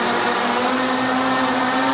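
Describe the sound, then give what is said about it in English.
The propellers of a 64-motor flying machine make a loud, continuous droning whir with a steady low hum running through it. The sound holds constant without pauses for the whole stretch. “As the propellers roared to life, the enlarged vision of Werner's futuristic machine slowly rose into the air.”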